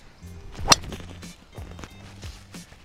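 A golf club strikes a ball on a golf course, hitting off the 10th hole. It makes one sharp, loud crack near the start, with quiet low sounds around it.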